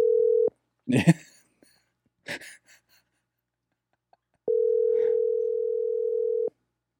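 A telephone ringback tone while a number is called back: a steady, even tone sounds briefly at the start, then again for about two seconds near the end, with faint breathy noises in the quiet gap between.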